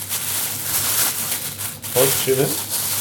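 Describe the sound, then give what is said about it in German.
Plastic packaging of minced pork (Mett) crinkling in a kitchen while Mett waffles are prepared, a steady crackly rustle throughout with a voice briefly talking near the end. “Das, was geknistert, ist die Packung vom Mett.”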